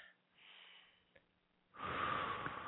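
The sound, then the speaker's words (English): A deep breath taken on cue at the start of a spiritual session: a soft airy inhale, a pause, then a longer, louder rush of breath at the end, all faint. “Okay, let's get started. Nice deep breath.”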